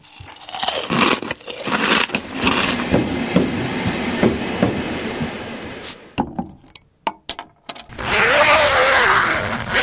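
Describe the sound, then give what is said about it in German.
A sequence of four sounds: crunching of chips and a train rumbling, then a few sharp clicks and pops as a beer bottle is opened, then a zipper closing with a steady rasp. No talking. “Zuerst ist Chips essen, dann ist ein Zug, das dritte ist Flaschen öffnen und das vierte den Reissverschluss zu machen.”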